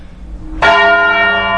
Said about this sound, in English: they do what they call the devil's knell, which is ringing the bell once for every year of the Christian era. So that's over 2,000 yanks of the rope by now.